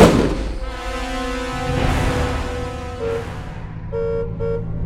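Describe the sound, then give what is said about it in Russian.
A car horn honks repeatedly on a heavy motor vehicle driven through a crowd of people, with loud sustained blares giving way to shorter, clipped toots. “Агент Паука вел мобиль через толпу людей, неустанно нажимая на сигнал.”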